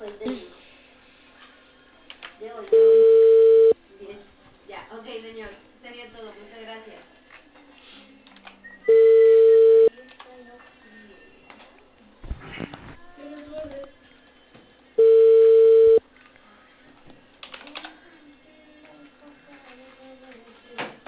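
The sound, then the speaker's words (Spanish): A telephone ringback tone sounds while a call is being placed: three steady, even beeps spaced about six seconds apart. People talk continuously underneath the beeps. “Estoy llamando, espérame.”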